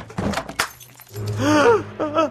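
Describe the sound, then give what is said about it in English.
Eyeglasses breaking and shattering: a few brief, sharp cracking impacts at the start, then a voiced exclamation follows. “My glasses! Where? They're broken. Completely shattered.”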